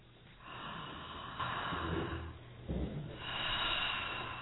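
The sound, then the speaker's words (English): A person takes slow, deep breaths during a guided breathing exercise. A few long, airy, soft inhales and exhales follow one another, muffled, with no talk over them. “Put your things down for a moment and just breathe deeply three times.”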